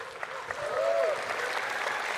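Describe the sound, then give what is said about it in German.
Audience applause after a panel discussion, a soft, even spread of clapping that swells slightly after the first half-second and then holds steady. “Vielen Dank. Applaus.”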